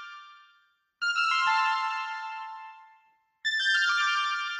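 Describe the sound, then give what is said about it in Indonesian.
Bright bell-like synth tones from a vintage Roland Juno-60, played in a song's bridge: a fading tail, then two struck chime notes, each ringing out and slowly decaying, alone without voices. “Itu gue pakai Roland Roland Juno yang Juno 60 yang vintage.”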